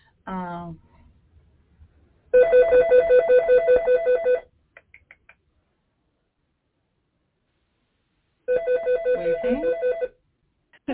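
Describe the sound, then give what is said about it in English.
A telephone rings while the call waits to go to voicemail. Two bright, trilling rings of about two seconds each are separated by silence, with a few faint clicks in between. “We'll wait for them to go to voicemail.”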